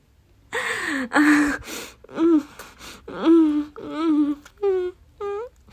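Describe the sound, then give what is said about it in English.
Breathy moans, gasps and sighs from an adult film playing on a TV come in a series of short vocal bursts with pauses between them, growing somewhat higher-pitched toward the end. “Oh, the noise. Oh, it's just the TV. I'm watching a naughty film.”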